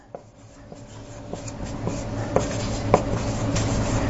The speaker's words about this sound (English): I don't even know why I'm writing this up here because I'm going to stand in front of it.